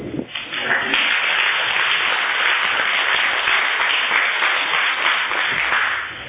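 Audience applause welcomes a panelist at an Al-Anon gathering, a dense, even wash of many hands clapping that holds steady for about six seconds before easing slightly at the end.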